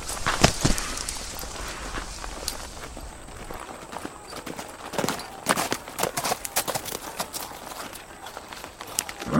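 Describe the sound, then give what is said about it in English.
Hoofbeats of a horse and rider approaching: an irregular clip-clop of hooves, with loose, uneven strikes that swell and fade over a steady rustling background. “Damn it, we got a rider coming. Everyone into the bushes.”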